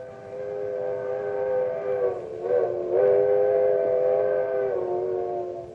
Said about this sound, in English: It's a locomotive whistle. The old-fashioned kind that was part of a coal-burning steam engine.